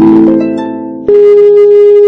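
After the call is hung up, a loud, steady telephone tone at a single pitch starts abruptly with a click and holds to the end. Before it, a humming tone fades.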